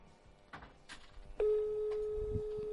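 Ringback tone of an outgoing telephone call: a single steady mid-pitched tone starts abruptly partway through and holds to the end, after faint scattered background noise.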